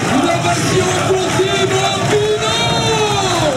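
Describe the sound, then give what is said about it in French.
A cycling race crowd roars like a football stadium, a loud continuous wall of cheering with shouts rising out of it. “Incroyable image, incroyable ambiance. Ici, on se croirait dans un stade de foot. C'est quand même l'homme qui a transformé les espaces cyclistes en stade de foot. Écoutez encore.”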